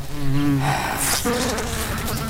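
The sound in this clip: A fly buzzes loudly and continuously, its droning whine wavering in pitch as it flies, with no voices present.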